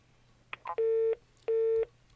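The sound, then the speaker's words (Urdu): A phone line tone sounds after a dropped call: a few short clicks, then two long, steady mid-pitched beeps separated by a brief pause, with another beep starting at the very end. “Call drop تھی گئی ہے”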